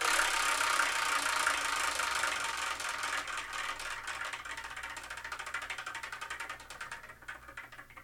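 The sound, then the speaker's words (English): Rattling clicks of a prize wheel spun to pick a numbered slot, a rapid, continuous ticking whir that gradually thins out and slows before it stops. “number it lands on, the manga that is on that slot is the manga we review in the next episode of the Spyrokin Manga Review, episode 374. And I'm kind of excited because we've got some really cool things on there and some really weird things. So let's spin and see what we're going to review,”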